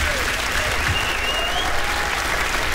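Concert audience applause at Dylan's 70th birthday tribute concert in Harpa, Reykjavík, a dense, steady wash of many hands clapping at an even loudness throughout.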